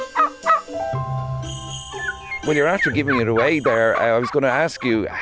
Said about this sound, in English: I have three turkeys here. That's the sound of them in the background.